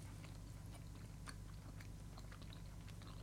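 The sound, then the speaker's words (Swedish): Quiet chewing during a taste test: many soft, crunchy bites and mouth sounds in a steady, uneven run, with no talk. “Tugg, tugg, tugg.”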